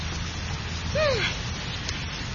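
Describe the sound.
Steady rain falling, a dense, even hiss that fills the whole clip at a constant level with no clear breaks.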